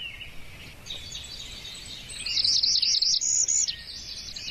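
Bird calls from two birds, one a northern parula warbler giving a zip call, migratory birds in a swamp area. Faint high chirps give way to a loud, rapid run of sharp, high-pitched notes, then a softer trailing series.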